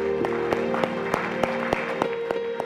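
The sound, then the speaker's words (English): A church audience applauds to welcome guests, with steady, rhythmic clapping and regularly spaced sharp claps over sustained musical tones. “let's welcome all our guests today by putting our hands together”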